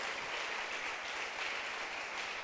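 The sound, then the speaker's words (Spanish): A church audience applauds during a sermon, a faint, continuous wash of many hands clapping that holds at a steady level throughout, with no talk on top. “¿Cuántos le dan un aplauso al Señor? Gloria a Dios.”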